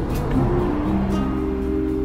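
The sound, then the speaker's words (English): A car drives on a road toward a small town in Baja California, Mexico, giving a steady low rumble of road and engine noise with a faint constant hum throughout and no clear changes. “But we are driving toward a town called Los Molinos.”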